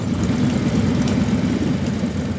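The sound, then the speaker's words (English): Deep, steady engine rumble from a funeral motorcade of white hearses and hundreds of motorcycles moving slowly through a cemetery. A loud, continuous low drone holds without distinct passes or breaks. “People were quiet as the motorcade rumbled by, with white hearses followed by Patriot Guard riders on hundreds of motorcycles.”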